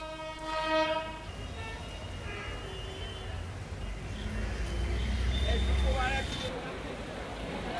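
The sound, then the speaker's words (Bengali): A special passenger train on the Chattogram–Cox's Bazar route departs Chattogram railway station. A loud, steady horn blast opens, then the deep rolling rumble of the moving train swells and carries on. “পরে দুপুর 1:05 চট্টগ্রাম কক্সবাজার রুটের একটি বিশেষ ট্রেনে দর্শনার্থীদের নিয়ে কক্সবাজারের উদ্দেশ্যে ছেড়ে যায়।”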